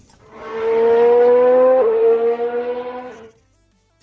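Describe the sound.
A race car drives past with a loud, steady engine whine that drops sharply in pitch as it goes by. It then fades away with a pulsing, wavering tone.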